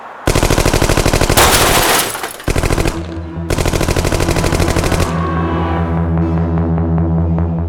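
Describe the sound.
Loud rapid machine-gun fire at a pizzeria comes in long, dense bursts of automatic shots broken by brief pauses, with no talking.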